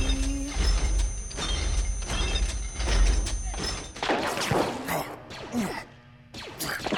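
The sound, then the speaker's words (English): A rocket fires and explodes during a sci-fi audio drama battle: a sudden, broad whooshing, crashing burst breaks in midway over a steady tonal backdrop, followed by scattered loud impacts. “One rocket left. All right, Jan. Make it count. Steady. Steady.”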